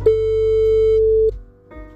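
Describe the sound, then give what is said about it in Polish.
Telephone ringback tone of a call ringing out: one steady, loud tone lasting a little over a second, a short pause, then the next tone begins. “Zadzwonię do pana Bogdana.”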